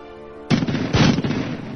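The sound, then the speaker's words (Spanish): A rifle gunshot: a sudden loud, sharp blast cuts in over a low steady hum. A second burst follows about half a second later, and a rough, noisy tail lingers to the end. “Sagawa toma un rifle, se lo dirige al cuello y le dispara”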